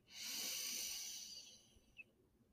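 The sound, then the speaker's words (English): A deep inhale during a guided breathing exercise: one long, airy breath drawn in through the nose and mouth, swelling quickly and then tapering off, fairly soft with no talk over it. “So go ahead and take a nice, big, deep, juicy inhale.”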